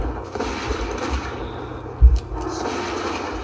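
Gunfire-like blasts from a hunter's aimed shot and concussive shot in a video game: two deep, booming thumps in quick succession, standing out above a steady wash of background game noise.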